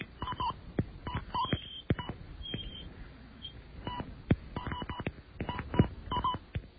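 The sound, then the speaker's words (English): Touch-tone telephone dialing: a quick, irregular run of many short beeping key tones in clustered bursts, separated by brief quiet gaps, with no voices. “Well, I just dialed that number”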